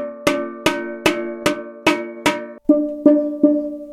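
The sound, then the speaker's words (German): Ringing metallic notes from a steel drum during fine tuning, its low fundamental still too low. Nine evenly spaced strikes, each loud and bright and then fading, with a pause before the last three. “Jetzt ist im Moment der Grundton zu tief und wenn man genau hinhört, merkt man, dass dieser tiefe Ton jetzt langsam ansteigen wird.”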